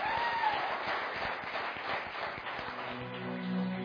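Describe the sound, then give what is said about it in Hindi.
Audience applause for a Pakistani cricket figure taking the stage, a dense, even crackle of many hands clapping, muffled and dull in tone, sustained throughout. “आपके भरपूर तालियां”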